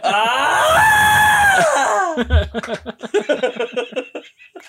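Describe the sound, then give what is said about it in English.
The famous stock movie scream sound effect: one long, strained, high-pitched scream of about two seconds whose pitch sags at the end, followed by choppy vocal sounds. “if you were to look and analyse the Wilhelm scream, it's going badly, and then suddenly your knackers are involved. And then you're dying.”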